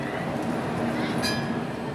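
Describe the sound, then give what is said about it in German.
Rumble of a blue-and-white Gothenburg M32 tram, car 421, running on rails: a steady, even roar throughout, broken midway by a brief high metallic squeal. “Modell M32, Wagen 421 und eine von hunderten blau-weißen Straßenbahnen, die das Bild in Göteborg prägen.”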